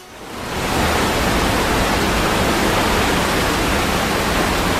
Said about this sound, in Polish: Dźwięk tu konkretnie wodospadu.